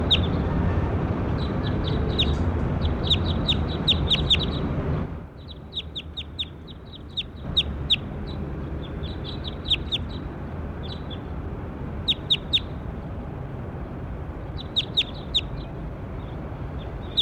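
Bird calls: high, short chirps repeated in quick clusters over steady background noise, with a brief quieter stretch partway through before the chirping resumes.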